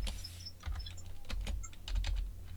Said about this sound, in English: I'm going to type it all again.